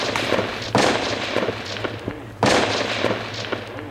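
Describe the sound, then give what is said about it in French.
Gunshots fired at police below crack out as two loud, sharp reports about two seconds apart, surrounded by lighter scattered pops and a low steady hum. “Que se passe-t-il ? Je crois qu'on tire sur les flics juste en bas.”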